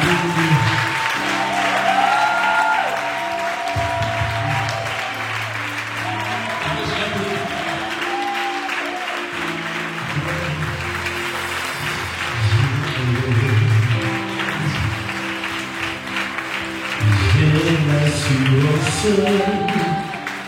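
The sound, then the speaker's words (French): A church audience stands and applauds during a service, with sustained clapping and cheering that swells and dips over twenty seconds, mixed with voices throughout. “Sans tarder, on va se tenir debout pour acclamer le secteur de Dieu ce matin.”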